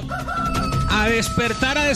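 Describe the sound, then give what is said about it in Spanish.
A rooster crows at five in the morning with a loud, strained, harmonic call that stretches through the whole moment in a few drawn-out phrases, over a steady low background. “Consiéntame el gallo, oiga, está avisándole que es hora de despertar.”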